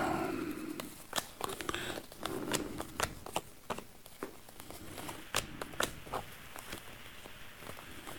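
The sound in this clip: Fortune-telling cards are drawn and shuffled, giving many quick, irregular soft snaps, flicks and papery rustles, faint and without talk.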